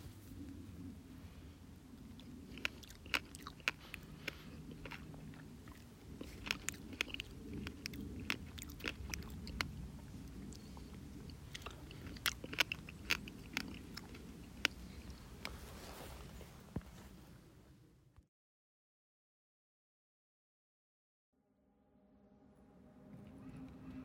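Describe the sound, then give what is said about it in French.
Crunching and chewing of raspberries and blackberries as an eating sound effect: many moist bites and crisp clicks for about eighteen seconds, then sudden silence. “Encore un petit effet à manger. Tu vas avoir le temps de partir aux framboises et de croquer des mûres.”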